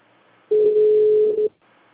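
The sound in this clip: A telephone dial tone heard while a call is being placed: one steady, mid-pitched electronic tone lasting about a second, alone over faint background hiss.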